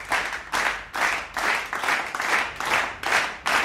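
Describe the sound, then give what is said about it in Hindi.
Rhythmic clapping in a steady beat, roughly two claps per second, each landing as a bright burst that quickly fades before the next. “वाह वाह वाह, ताली बजाते हैं।”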